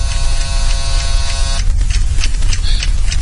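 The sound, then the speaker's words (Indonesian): Screwdrivers and other tools rattling in a garage: a loud steady electric buzz fills the first half, then gives way to irregular clattering knocks and rattles. “Yang jelas sangat berisik sekali. Seperti ada suara obeng dan perkakas-perkakas yang ada di garasi yang gerak-gerakan.”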